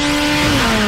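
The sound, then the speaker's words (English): Motorcycle speedway racing: a loud, sustained, high engine whine that sounds alone for under a second, its pitch dipping slightly toward the end. “Hear that? That's the sound of Fast Friday's Motorcycle Speedway Racing.”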